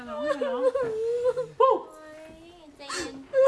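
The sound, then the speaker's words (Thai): Crying and sobbing during a domestic quarrel over family violence: a wavering, breaking voice with whimpers and catching breaths, rising and falling in pitch across several uneven bursts. “อย่าร้องไปเลยนะ”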